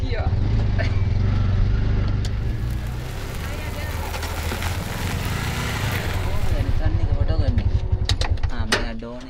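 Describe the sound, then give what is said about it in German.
Tuk-tuk engine pulling in first gear along a gravel road, a loud, steady rumble with continuous rattling and clatter that holds for the whole stretch. “Also schmeißen wir mein Tuk-Tuk nochmal an. Ab geht's auf die nächste Schotterpiste. Was ist das für eine Straße? Jetzt muss ich in den ersten Gang.”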